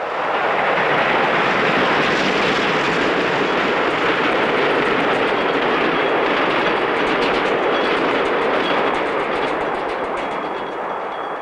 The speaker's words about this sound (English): Overhead, a light fixture trembles as a train rumbles by.